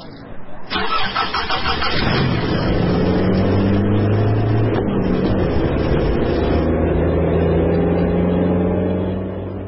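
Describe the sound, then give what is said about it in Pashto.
A car engine cranks and catches, then settles into a steady, loud droning hum with a low, even pitch as the car pulls away and keeps running for several seconds. “درځه الګ موټر روان کړه.”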